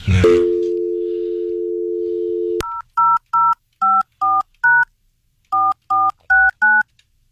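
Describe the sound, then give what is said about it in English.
Telephone keypad dialing tones: a steady, continuous dial tone runs for a few seconds after a brief click, then nine short, evenly spaced dual-pitch beeps as digits are pressed, with a brief pause partway through. “I don't know whether you dialed enough numbers.”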